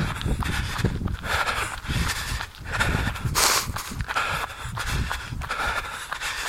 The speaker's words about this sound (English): Running a cul-de-sac.